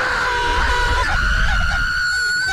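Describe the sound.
A person imitates the scream of riders on a tall roller coaster's drop, a loud, shrill, sustained wail held at a steady high pitch for the entire clip.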